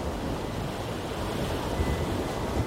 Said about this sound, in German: Jenseits der Meerenge liegt der in der sanften Junibrise angenehm wogende Atlantik.